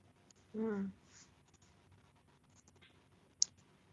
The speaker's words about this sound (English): Yeah, I'm writing what you're saying down.